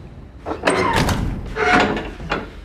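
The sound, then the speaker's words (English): A door shutting in a room used for fear training: a few dull thumps and knocks in quick succession, with a louder burst near the middle, over a steady low background. “Shut the door.”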